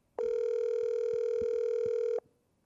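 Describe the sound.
A telephone ringing tone during an outgoing call: one steady, clear electronic beep held for about two seconds, then cut off, over faint low background noise.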